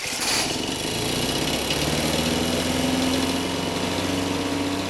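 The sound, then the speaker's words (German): A leaf vacuum without MTF runs steadily. Its small engine gives a loud, continuous droning whine over a broad rushing roar that holds nearly level for the whole stretch, with no voices. “Hier, bei diesen Laubsaugern kann man das auch akustisch sehr schön demonstrieren. Der hier ist noch ohne MTF.”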